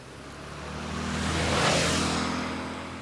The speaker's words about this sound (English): I'm driving through an area that there are trees on the left, trees on the right, and I'm going down a hill.